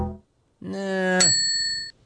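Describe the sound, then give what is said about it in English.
A bright bell ding rings out once and its high overtones hang for under a second. It sits over a sustained lower harmonic tone that starts just before it. “We need a bell.”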